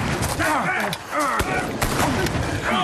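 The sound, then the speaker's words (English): Gunfire in a battle: many sharp, loud shots crack in quick, irregular succession, with shouting voices mixed into the din. “Down! Return fire!”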